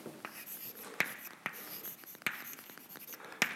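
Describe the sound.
Writing on a board during a lecture: a scratchy stroking sound with a few sharp taps and strokes standing out from the steady scraping, with no talk over it.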